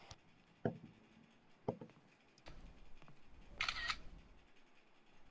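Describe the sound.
Camera shutter clicks as photos are taken: a few sharp, separate snaps spaced apart, then a brighter, longer burst of clicking near the end, all over a faint steady background hiss.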